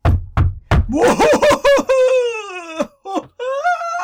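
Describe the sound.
Knocking comes first: three quick, hollow knocks. An eerie, wavering voice-like wail follows, sliding up and down in pitch with short breaks between phrases.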